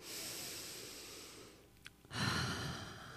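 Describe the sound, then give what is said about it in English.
A deep breath drawn in: a soft, airy rush of breathing, quiet and alone, broken by a short pause before a fuller intake follows. “I want you to close your eyes, and I want you to take the deepest breath.”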